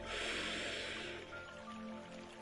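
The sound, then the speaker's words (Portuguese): A long inhaled breath during a guided meditation: a soft, airy rush that lasts about a second, then fades into a quiet, faintly tonal background. “e eu expiro. Inspirando estou,”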